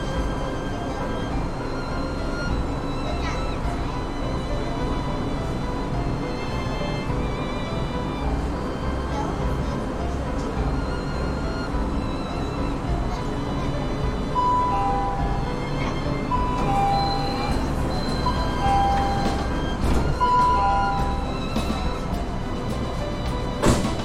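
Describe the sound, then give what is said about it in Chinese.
A metro train starting to move gives a dense, continuous low rumble that holds steady throughout, with faint high whining tones appearing in the second half. “列车启动，请扶好站门。”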